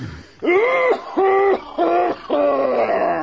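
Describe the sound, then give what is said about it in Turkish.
Harsh, strained coughing from a man in a radio drama, like whooping cough: four voiced, wheezing bursts with a tonal, whooping quality, the last one longest, with no speech over them. “Ama böyle boğmaca gibi öksüren de kim”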